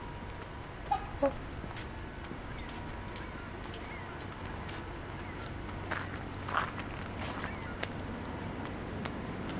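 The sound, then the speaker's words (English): Two trumpeter swans walk along a park trail in Ontario, their faint, uneven footfalls pattering softly over steady background hiss, with a few brief, slightly louder taps. “So I've got two trumpeter swans hiking with me right now along the trail.”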